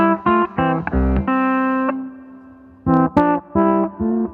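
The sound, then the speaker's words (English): Electric guitar through an effect pedal with its mix turned all the way up, giving a subtle envelope-filter-like quack. A run of short plucked notes leads into a held, ringing chord, then more short punchy notes follow. “But it gives you this really like, almost almost like envelope filter, but really subtle. Yeah, it is. It's. And if I turn up the mix all the way, you can really hear it.”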